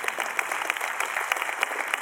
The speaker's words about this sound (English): Clap your hands if you believe he crashed.